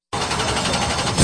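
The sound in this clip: Race car engines at full throttle at a Red River Valley racing speedway, a dense, loud, steady buzzing roar that swells slightly at the very end of the short burst.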